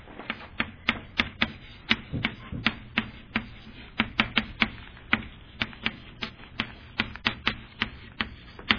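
Chalk writing on a board: many sharp taps and short scrapes in an irregular, quick rhythm, crisp and fairly loud, with no voices.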